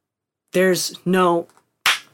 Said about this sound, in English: So if you can tell right now, if I clap,